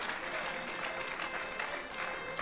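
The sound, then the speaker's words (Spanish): Applause from a church audience praising God during a Spanish-language sermon, a steady dense wash of many hands clapping throughout, fairly loud with some crowd noise mixed in. “Denle un aplauso fuerte a nuestro Dios.”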